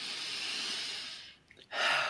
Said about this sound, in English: I start off with that breath